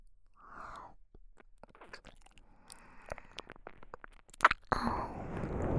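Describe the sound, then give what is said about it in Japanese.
Wet mouth nibbling and sucking on an ear, a run of soft crackly smacks and squelches that grow denser and louder toward the end, with no talk. “君のお耳があまりにも可愛いから、また食べてしまったんだ。こうやって、しゃぶられるの好きだろう。”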